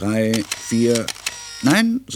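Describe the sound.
Several sharp camera shutter clicks go off as a father photographs a child on the first school day, posing with a school cone and satchel. The clicks fall between stretches of voice.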